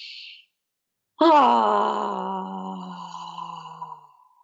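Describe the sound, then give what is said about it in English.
A long voiced "ah" released on an exhale: a steady, moaning vocal tone lasting about three seconds that sinks slightly and fades out, preceded by a brief breathy hiss. “On the fourth breath, you actually exhale and you just let that ah sound come out,”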